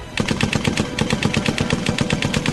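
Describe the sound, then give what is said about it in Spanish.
Machine gun fire as a radio drama sound effect, with rapid, evenly spaced shots that run steadily and loudly for the whole clip, without pause or voices. “Juan, Diana y Favalli llegan a la ametralladora enceguecidos de furia. Disparan aturdidos, enloquecidos, inconscientes del inminente final.”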